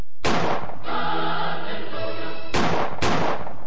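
Gunshot sound effects on a comedy show: a few loud, sharp blasts, the first trailing off into a long rumbling tail and two more cracking close together near the end.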